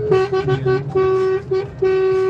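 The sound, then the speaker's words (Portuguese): A car horn honks in a rapid series of short, mid-pitched toots with one longer blast in the middle. The honks are loud and come one after another with only brief gaps. “Ó a buzina lá, ó lá, que beleza.”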